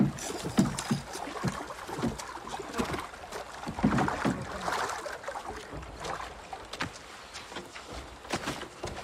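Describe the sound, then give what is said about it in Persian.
A ship setting off on the water: a steady wash of water and wind with repeated knocks and splashes throughout, moderately loud, with no talk. “کشتی آماده است. آماده باشین حرکت میکنیم.”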